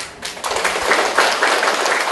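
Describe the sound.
An audience claps during a Buddhist monk's dharma talk. After a brief quieter moment, the applause swells into dense, steady clapping that carries on to the end.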